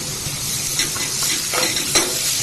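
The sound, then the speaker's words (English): Chopped vegetables and garlic sweat gently in a pan for bolognese sauce, without browning. A soft, steady sizzle runs throughout, broken by a few scraping stirs. “Cook that out for 1.5 to 2 minutes. We're not browning the veg, we're just lightly sweating it off.”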